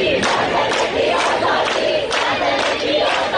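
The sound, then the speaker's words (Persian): Protesters chanting slogans in the streets of Ekbatan, Tehran: a loud crowd of voices shouting in a steady rhythmic cadence, with repeated surges of sound. “مردمی که در اکباتان شعار می دهند.”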